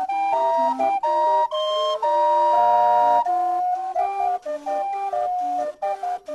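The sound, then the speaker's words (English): The steam calliope on the steamboat Natchez plays a loud melody of bright, whistle-like piped notes, some held and some short, with no voices. “That's the sound of the steamboat Natchez Calliope”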